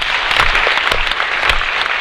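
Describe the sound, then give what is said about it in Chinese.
Audience applause at a product presentation meeting: a dense, steady wash of many hands clapping, fairly loud and even throughout, with no voices over it. “掌声鼓励一下”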